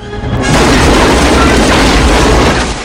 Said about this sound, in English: A thug lobs a grenade.